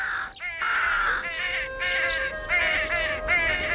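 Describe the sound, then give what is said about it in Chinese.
A young crow, recently healed from an injury, caws as it flies away. It gives a string of harsh, nasal calls that are fairly loud and evenly repeated with short gaps between them. “那只受伤的小乌鸦痊愈了”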